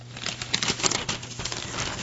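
A paper page turns with a brief, soft rustling crinkle, steady and fairly close for about two seconds.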